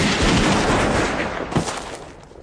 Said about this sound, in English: Aim! Fire!